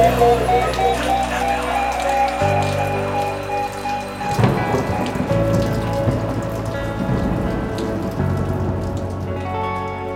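Steady rain patters with rumbles of thunder, mixed under a music track with sustained tones that run throughout.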